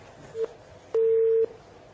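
Telephone line tones as a caller's call drops during a call-in: a short beep, then a longer half-second beep, both steady and mid-pitched over faint background hiss.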